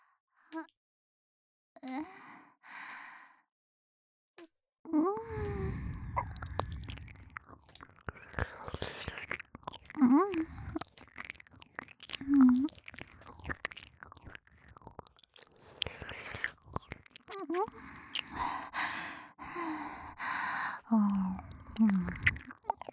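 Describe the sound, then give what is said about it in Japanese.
Wet ear-licking mouth sounds, with slurping, smacking and soft clicks running almost continuously from about five seconds on, after a few brief breathy sounds at the start. “耳なめご奉仕もさせていただきます。”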